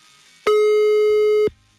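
A telephone busy signal after dialing: a single loud, steady electronic beep of about one second, starting and stopping abruptly, heard alone with no voices.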